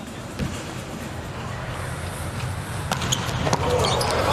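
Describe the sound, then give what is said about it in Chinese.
A volleyball bounced by a player before serving in a match: a few sharp thuds rise above a steady arena crowd murmur that grows slightly louder toward the end. “拉古姆奇亚的发球，”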